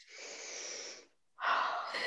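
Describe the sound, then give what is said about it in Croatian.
One long, hissing deep breath in, a short pause, then a fuller breath out during a guided breathing exercise, both clear and steady with no talking. “Udahni, zdahni.”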